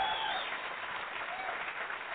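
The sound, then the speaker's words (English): Steady applause, a dense wash of many hands clapping at an even, moderate loudness throughout, with no voices standing out. “As you guys could tell, we love applause around here.”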